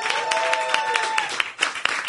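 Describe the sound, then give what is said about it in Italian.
An audience applauds at a comedy night as the first comedian is introduced, with dense, steady clapping that continues throughout and has a few sharper bursts. “Mico Pugliares, fate un applauso fortissimo.”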